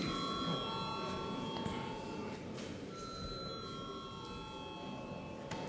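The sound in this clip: A chamber bell is rung in a parliament before a vote, a steady electric ringing of layered sustained tones over a quiet background hum that lasts the full few seconds.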